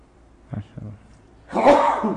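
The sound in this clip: A sneeze during a lecture on fasting rulings: two brief soft sounds come first, then one loud, breathy burst lasting well under a second.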